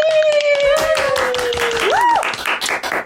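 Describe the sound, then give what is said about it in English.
A live comedy audience claps to welcome a comedian to the mic, a dense, steady patter of applause with a voice speaking over it. “Everybody, please put your hands together and welcome to the mic, the very funny, the very lovely Deborah Frances White.”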